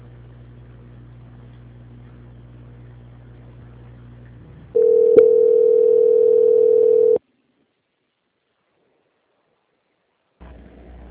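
A steady telephone line tone plays during a call transfer, holding one even mid pitch for a couple of seconds before cutting off to silence; a low hum runs underneath before it and returns briefly at the end.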